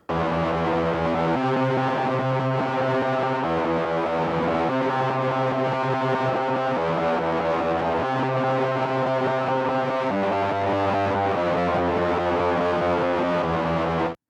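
Distorted electric guitar with effects playing the verse part of a rock song, two layered guitar parts sustaining loud chords that shift every second or two in a repeating pattern, with no voices.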